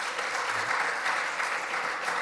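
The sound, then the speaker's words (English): Audience applause congratulating a girls' team on a district championship, with dense, steady clapping that holds at an even loudness throughout and has no talk over it. “Absolutely, definitely clap for them.”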